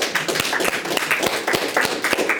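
Audience applause at a Catholic book launch event: scattered, crisp hand claps that patter irregularly at moderate loudness throughout, with no voices.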